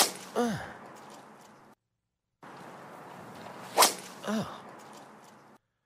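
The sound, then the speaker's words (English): A golf driver's tee shot, a 326-yard drive that was the player's first of a tournament: a sharp, bright crack stands out, with brief swishing sounds around it and a short silent gap earlier. “Not only that, you can hear it. Just that sound. That was a 326-yard drive, his first tee shot of the tournament.”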